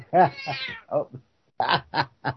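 A cat meows in several short, tonal calls. They come in two bursts separated by a brief silence, each call rising and falling in pitch.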